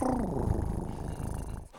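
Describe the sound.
A voice imitating a cat cooing while scratched under the chin: a low, rumbling, purr-like trill that starts with a falling tone and continues steadily for nearly two seconds before cutting off.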